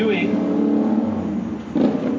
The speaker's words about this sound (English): what I've been doing is I pause when a motorcycle or a loud car or truck goes by.